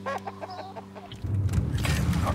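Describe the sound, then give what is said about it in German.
Chicken clucking in rapid, busy bursts takes over about halfway through, loud and dense, after a quieter opening with a low steady tone. “Die Ilsa ist praktisch nicht mehr am Produktionsprozess beteiligt. Ist mehr so ein Glückshuhn. Ein Glückshuhn? Heißt das, dass die da goldene Eier.”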